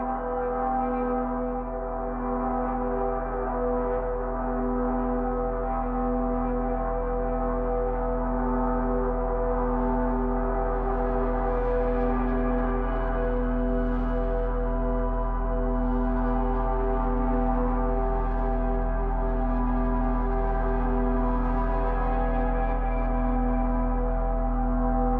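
A droning piano tone played with an EBow and recorded very close and hot, with built-in harmonic distortion; a steady, unbroken sustained hum with rich overtones holds at an even loudness throughout, with no voices.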